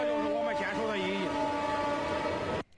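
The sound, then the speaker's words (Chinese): A train rumbles past at night on a railway line in Henan and sounds a sustained, steady horn that cuts off abruptly near the end, with brief voices heard early over it. “列车轰鸣驶过，一阵鸣笛穿透夜空，那是司机与值守者心照不宣的问候。”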